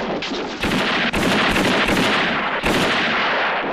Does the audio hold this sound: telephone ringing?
no